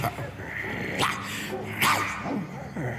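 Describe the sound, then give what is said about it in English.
Dogs barking as hunters with horses track a man's scent, a few sharp barks rising out of a steady, noisy background. “he falls to sleep in a low place, only to wake up to the sound of dogs barking”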